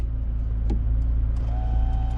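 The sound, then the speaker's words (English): A car's driver's seat lowering: a steady low electric motor hum, joined partway through by a thin, steady whine. “The driver's seat lowers down.”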